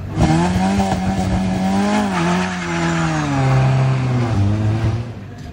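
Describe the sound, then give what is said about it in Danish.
A race car engine starting from the foot of a hill climb, a loud, sustained engine howl that holds its pitch, then dips as the car changes gear and pulls away. “Nu kommer der endnu en start fra foden af Munkebjergbakken. Den lyder sådan her.”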